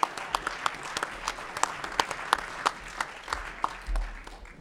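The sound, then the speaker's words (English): A small audience gives a hand for the sound technician at a candidate forum. The clapping is thin and scattered, with sharp individual claps at an uneven rhythm rather than a dense roar. “If we could have a hand for Brock for setting this up.”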